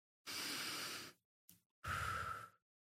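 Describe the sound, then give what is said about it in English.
A deep breath taken alone: a long, steady inhale, a brief catch, then a fuller, rushing exhale, all quiet with silence around it. “He takes a deep breath.”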